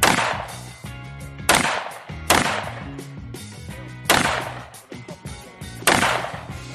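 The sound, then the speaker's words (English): Several loud rifle shots from a Tavor firing .223 full metal jacket rounds, each a sharp, hard blast with a ringing tail that decays before the next, spaced irregularly one to two seconds apart. “We got 223 in full metal jacket out of this Tavor. Let's see what happens.”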